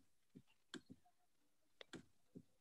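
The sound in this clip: A computer mouse clicking faintly: several short, sharp clicks, some in quick pairs, spaced irregularly over near-silence.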